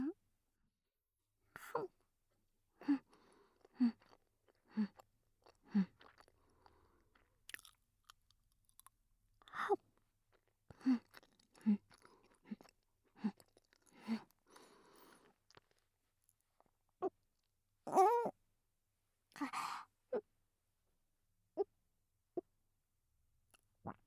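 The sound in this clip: Chewing an overly large mouthful of sweet red bean paste (tsubuan): wet, sticky mouth clicks and smacks come in irregular clusters separated by short pauses, fairly soft throughout.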